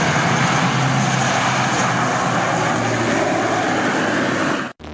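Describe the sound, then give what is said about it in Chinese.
A military transport aircraft takes off with a loud, continuous engine roar, broad and steady for several seconds before cutting off abruptly at the end, with no voices. “随着起飞指令下达，运输机急速升空，飞向任务空域。”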